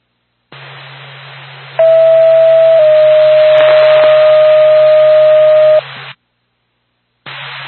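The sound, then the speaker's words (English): An ambulance dispatch alert tone sounds over radio static: a loud, steady, high tone holds for about four seconds. A constant low hum and hiss run beneath it, then cut out and return after a short gap. “Back to Lancaster Ambulance, stand by for tone.”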